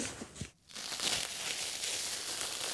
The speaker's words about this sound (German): Ich reiße ihn jetzt hier raus, weil ich natürlich einen guten Ausgangspunkt schaffen möchte